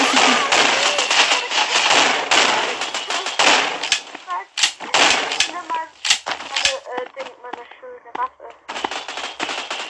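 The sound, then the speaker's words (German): Shotgun fire in a Roblox video game battle: many sharp, loud bursts and cracks in a dense, irregular barrage, thinning out toward the end. “Hier gibt es ja gerade richtig krasse Schlacht. Yeah. Ich habe jetzt Shotgun genommen.”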